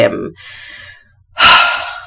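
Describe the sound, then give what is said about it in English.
Deep, controlled tactical breathing: a brief breathy sound, then a long, soft inhale followed by a loud, forceful exhale. “I need my tactical breathing in this moment to just get it together.”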